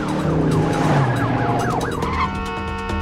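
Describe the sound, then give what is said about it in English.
A Charger car takes a hard turn at a bend in the road, with loud, continuous engine and road noise and a wavering, wailing siren running over it throughout. “The Charger takes a hard turn at a bend in the road.”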